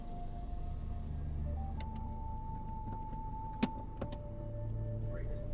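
A car drives on a 300-mile trip to a reservation, giving a steady low road rumble and engine hum with a sustained tone. A few brief clicks break through it.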